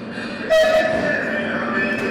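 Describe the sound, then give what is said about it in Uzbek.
A passenger train from Kyiv arriving at a station in Kherson gives a steady, loud rumble, with a brief high tone rising above it early on. “19 noyabr kuni Xersonga Kievdan yo'lovchi poyezd yetib keldi.”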